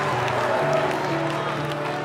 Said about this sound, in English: you can clap once, go ahead.